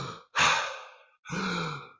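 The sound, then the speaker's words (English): A deep, full breath in followed by a strong puff out, as in super-oxygenating breathwork. A sharp, loud rushing inhale is followed after a short pause by a longer, steady exhale carrying a faint voiced tone. No one speaks. “where you're going very deep, a very deep full breath, and a strong puff out, and then back in again”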